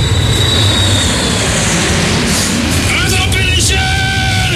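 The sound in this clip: An airplane arrives with a steady, loud engine drone, a broad rumble with a whining edge that holds constant throughout.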